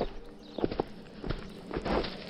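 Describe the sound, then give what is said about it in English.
Footsteps of someone trying to sneak into a cave, a faint series of soft, irregular thuds and scuffs that land unevenly, with a brief lull in the middle. “Could you perhaps walk more quietly? Dude, this is as sneaky as I get.”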